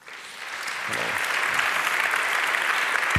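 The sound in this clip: Audience applause welcomes two speakers at a talk, a dense, even patter of many hands that builds quickly in the first second and then stays loud and steady to the end.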